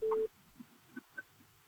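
A telephone disconnect tone sounds once as a call drops: a single short, loud, steady beep at the start, then only a few faint soft blips.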